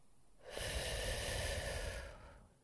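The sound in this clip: A single deep inhale through the nose during a calming breathing exercise, a soft airy rush that swells quickly, holds steady for nearly two seconds, then tapers away on its own.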